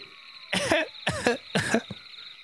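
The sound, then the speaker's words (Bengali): Someone coughs three times in a room. Each cough is a sharp, harsh burst, evenly spaced and loud, with no talking. “আবার সেই শব্দ না এ তো মনের ভুল নয় স্পষ্ট যেন কে কাশছে ঘরে”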